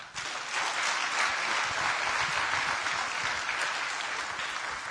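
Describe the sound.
Church audience applauding to welcome guest speakers at a morning gathering, a dense, even wash of clapping that stays loud and steady for several seconds.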